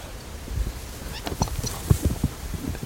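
A horse's hooves clip-clop as a rider crosses a wash on the way back to town. The clops are faint and uneven, spread over a few seconds.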